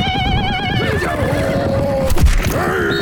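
A horse on the Mongolian steppe neighs loudly in a quavering, high-pitched whinny that wavers and descends, then gives a second, shorter call near the end over dense, constant background noise.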